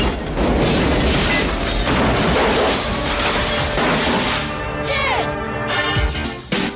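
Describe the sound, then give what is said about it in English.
A C4 charge in a car trunk explodes and hurls the car into the air: a loud, dense blast and crash that roars on without a break for several seconds, then eases near the end. “Carter shoots again, exploding the C4 and sending the car flying through the air.”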